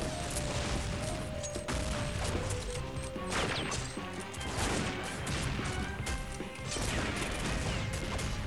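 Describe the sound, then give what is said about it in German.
Gunfire traded back and forth during a police confrontation, with repeated sharp cracks and crashes scattered through a dense, continuous layer of clattering noise. “Der Mann, um den es sich handelt, schießt zurück. Nun knallt es mehrmals.”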